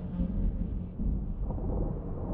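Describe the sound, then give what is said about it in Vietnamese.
Thunder rumbles in a storm as a steady, low, fairly quiet roll with no sharp crack, sustained through the whole stretch. “Tiếng sấm bắt đầu vang lên tới tấp, từng tia sét theo nhau mà nhá lên từng tia ngang dọc”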